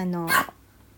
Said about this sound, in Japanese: すいません、ワンちゃんが吠えちゃってごめんなさい。